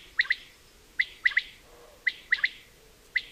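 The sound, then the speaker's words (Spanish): Song of a male common quail: sharp, liquid, high-pitched calls repeated in three-note phrases, each a single note followed by a quick pair, over a quiet background. “Este es el canto de la codorniz macho, una llamada a las hembras que realizan distintas etapas de su viaje desde África hasta Europa.”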